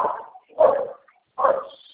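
A dog barks a few times, with short sharp yelps that stand out clearly against a quiet background, the later barks louder than the first.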